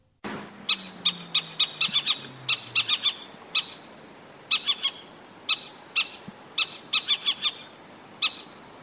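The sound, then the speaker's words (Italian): Male little owl calling, a long series of brief, high, clear notes that come in irregular clusters of two to four, with short pauses between the groups. “Intanto, per partire, ascoltiamo il maschio di civetta.”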